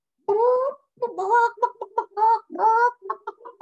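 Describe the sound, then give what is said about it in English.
A person imitates a chicken, clucking in many short, nasal, voiced bursts with a choppy, uneven rhythm and no other sound. “if I do that, am I a chicken? Did I just become a chicken because I acted like a chicken?”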